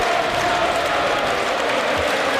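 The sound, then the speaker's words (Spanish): A stadium crowd at a football match applauds a substituted player, a dense, steady wash of clapping and crowd noise without breaks. “se marcha Skelly, aplaude la grada, le aplauden a él y va a entrar Martín Zubimendi”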